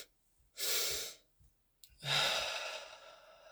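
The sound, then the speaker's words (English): Deep double inhale during guided breathwork for feeling overwhelmed, taken with the arms wrapped around the body: two long, breathy rushes of air, the second longer and trailing off slowly, with quiet gaps between. “So let's take the double inhale with our arms wrapped fully around our body. Inhale.”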